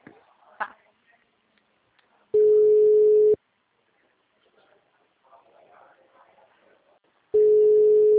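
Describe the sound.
Outgoing phone call ringback tone: two loud, steady, mid-pitched tones of about one second each, separated by a long pause with faint low background noise.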